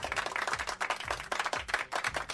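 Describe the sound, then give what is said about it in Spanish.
Canned applause plays as a sound effect: a dense, steady wash of many hands clapping, fairly loud, with no voices over it. “Esos aplausos que me rompen los micrófonos, que me gustan tanto. O sea que os voy a dar yo uno de lata.”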